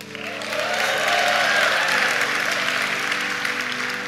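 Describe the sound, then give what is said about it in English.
Applause and cheering from a church audience swell in over the first half second, then hold as a sustained, even wash of clapping and crowd noise before easing slightly at the end. “Now make some noise if that's going a little slow.”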